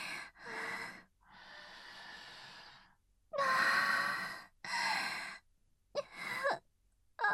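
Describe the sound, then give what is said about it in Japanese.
Sniffing and deep breathy inhales as someone smells a scent: several separate breaths of uneven length, some voiced and sigh-like, with short quiet gaps between them. “この匂い嗅いでたら、吸ってたら、おかしくなっちゃいそう。でもでも、止まらない。”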